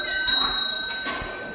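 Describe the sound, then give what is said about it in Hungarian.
A school bell rings to call children in for class, a sustained bright metallic ringing that holds steady at fairly even loudness from start to finish. “Megtörténik a becsengetés.”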